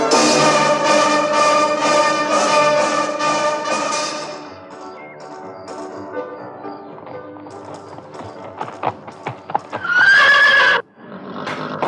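A bay stallion neighs in a loud, harmonic whinny, followed by a few sharp hoof-like taps and a brief second whinny near the end.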